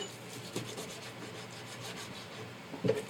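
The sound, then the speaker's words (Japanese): A knife cuts a chicken thigh, about 350 g, into bite-size pieces, giving a faint, steady rubbing and scraping with a couple of slightly sharper knocks and no talking. “鶏もも肉ですね。これ、まあ適当です 350g ぐらいありますかねこれをちょっと一口大に切っていきます”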